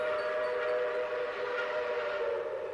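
A train on the line toward Floresta station arrives at a stop, giving a steady whining hum over broad, even rumbling noise that holds throughout, with no voices.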